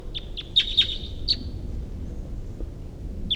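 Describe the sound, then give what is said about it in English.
A wild bird chirps in short, high, thin tweets. A quick cluster comes early, then one more after a pause, over faint low background noise. “Headed in the direction of the wild bird here.”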